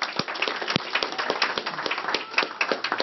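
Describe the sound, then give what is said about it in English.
An audience gives a round of applause at a talk, with rapid, crisp individual claps packed into a lively, fluttering ovation that stays fairly even. “So let's give them both a round of applause.”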